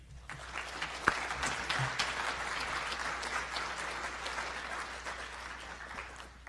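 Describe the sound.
An audience applauds to welcome two speakers, a steady, moderately loud clatter of many hands that lasts about six seconds.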